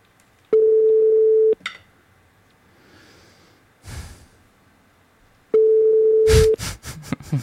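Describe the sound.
Ringback tone of an unanswered phone call: two long, steady, mid-pitched beeps about a second each, separated by a few seconds of quiet with soft breathy noises, then a rustle after the second tone.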